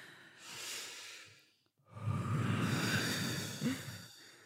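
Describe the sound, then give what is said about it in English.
People breathe together slowly and deeply: a soft airy inhale, a brief silent pause, then a longer, louder, breathy exhale. No one speaks. “So let's all breathe together.”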